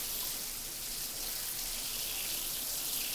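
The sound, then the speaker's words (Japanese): Hot water runs and soaks into hair during a hair wash, a soft, continuous hiss of flowing water that stays faint and even from start to finish. “たっぷりと髪の毛にお湯を染み込ませて。”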